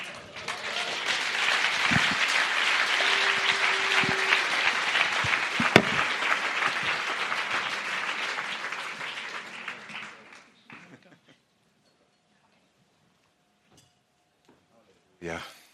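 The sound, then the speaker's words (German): An audience at a church conference applauds in a dense, steady burst of clapping that lasts about ten seconds and then dies away into near silence, followed by a short burst of sound at the very end. “Gebt mir Janet nochmal einen kräftigen Applaus”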